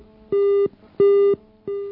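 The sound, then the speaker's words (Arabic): Telephone busy signal after a dropped call: three steady, mid-pitched electronic tones in an even on-off pattern, each lasting about a third of a second with short silences between, the last cut off at the end. “طيب انقطع الاتصال، في اتصال آخر.”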